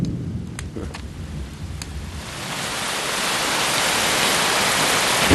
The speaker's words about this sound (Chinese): 正是这么大的雷啊，吓我一跳。你看，要下雨了。